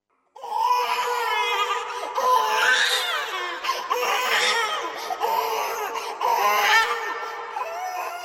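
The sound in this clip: Continuous crying from a fussy, hungry-seeming baby despite regular feeding: high, wailing, harmonic cries follow one another almost without pause at a steady, moderate loudness, with no talk.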